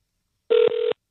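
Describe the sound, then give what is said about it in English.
Telephone ringing on a call to a carol-singing phone line: two steady, mid-pitched electronic ring bursts in quick succession, each about a fifth of a second long, clear and alone. “Good morning, and thank you for calling Dial a Carol.”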